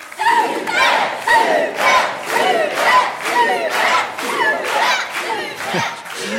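A live family audience of all ages, many of them young, chants and cheers to encourage two contestants at a quiz game in Montignac-Lascaux. Loud crowd shouts come in regular rhythmic surges, about one every second.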